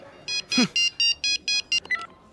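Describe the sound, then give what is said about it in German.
A mobile phone rings with a rapid series of many short, bright electronic beeps in a steady rhythm. The tones are clear and fairly loud against a faint background. “Dein Handy. Dein Mobiltelefon klingelt.”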